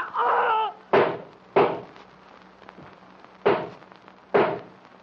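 Gunshots from two guns in a drama, with four sharp, loud shots in an uneven rhythm, each ringing off briefly. A short vocal sound comes just before the first shot.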